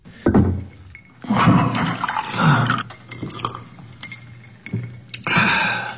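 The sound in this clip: Water being poured and drunk from a glass as a judge gets a drink of water in a courtroom, with several loud bursts of liquid splashing and glassy clinks and no voices.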